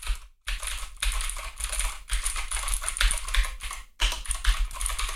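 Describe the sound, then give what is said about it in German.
Typing on a mechanical keyboard with blue switches: many brisk, crisp keystrokes clatter in quick irregular runs, broken by a couple of brief pauses. “hört mal, ich tippe jetzt mal, ich weiß nicht, ich hoffe, ihr kriegt das mit.”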